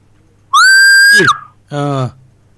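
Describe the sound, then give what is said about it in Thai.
Someone whistles loudly: one long piercing note that rises slightly, holds, then drops away. A shorter, lower tone with a buzzy, voice-like quality follows after a brief pause. “เสียงผิวมากเลยครับผิวปากคราวนี้แต่ดังขึ้น”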